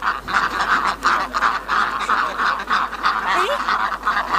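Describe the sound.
Ducks calling as they waddle home at dusk, a continuous chorus of loud, overlapping honking quacks with no break in the flock's noise.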